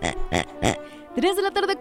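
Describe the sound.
Three short, grunting pig oinks in quick succession, followed by a voice.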